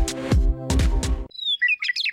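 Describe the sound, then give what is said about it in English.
A lark bunting sings during the summer breeding season on North America's Great Plains, with a short burst of high, quick twittering chirps and whistles lasting about a second. “During the summer breeding season, North America's Great Plains come alive with birdsong. Among the most memorable is the lark bunting, whose serenade is complete with costume and choreography.”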